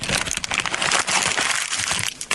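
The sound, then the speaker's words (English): A small cardboard desk calendar is crumpled, giving dense, continuous crackling and crinkling that stays loud and unbroken for about two seconds. “Little cardboard calendar off of Lou's desk, May 2016.”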